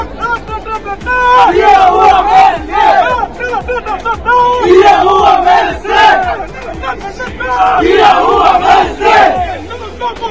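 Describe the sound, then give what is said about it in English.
Argentine football fans chant in unison at the World Cup as their team completes a 2-0 win over Poland, a loud, rhythmic mass of voices that swells and dips continuously throughout. “That's right, the sound of Argentine fans as the Albi Celeste rounded off a 2-0 win over Poland to qualify for the knockout stage of the World Cup.”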